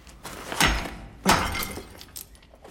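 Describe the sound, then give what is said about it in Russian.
A hammer smashes a water pipe elbow: two sharp breaking crashes, each trailing off in scattering debris, then a faint smaller knock. Fairly quiet overall. “Разбивает отвод. Убирает ногой осколки.”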